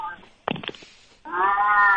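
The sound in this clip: A cat meows while sitting on a chair: a short rustly burst, then a long, steady, harmonic cry that holds to the end.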